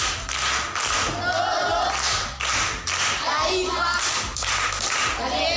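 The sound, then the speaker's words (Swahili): An audience claps during a primary school quiz session as a pupil is praised. The clapping is steady and fairly loud, with brief dips, and other sounds run beneath it. “Makofi kwa mjomba.”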